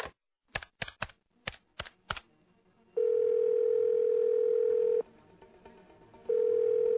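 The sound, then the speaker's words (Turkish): Telephone sounds as someone places a call: a quick run of sharp dialing clicks, then a loud, steady dial tone that cuts out briefly and resumes. “Bari bir telefon açayım, bakayım geldi mi?”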